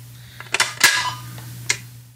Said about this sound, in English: I'm going to pull the handles out now. I'm pulling both of them out at the same time.